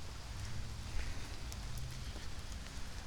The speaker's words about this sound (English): Just rain. Just rain.